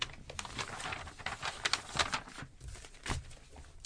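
Someone writing down a joke: faint, scratchy strokes and soft rustles that come in irregular bursts with small gaps between them.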